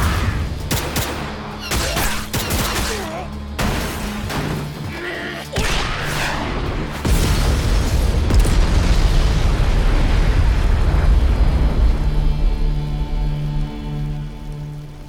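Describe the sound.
A grenade explosion in a video game firefight: rapid sharp bursts and crackling impacts, then a loud, booming blast swelling into a sustained roaring rumble that slowly fades.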